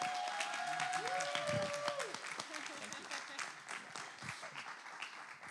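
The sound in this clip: A church audience applauds to welcome a guest speaker on a Sunday morning. Sustained, dense clapping carries a few brief tonal sounds early on and thins slightly toward the end.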